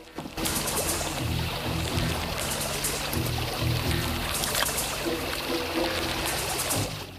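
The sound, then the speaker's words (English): Someone wades slowly across a river, water sloshing and washing steadily around them at an even, moderate level for several seconds, with no voices. “He stealthily wades across the river, emerging in the reeds on the far side.”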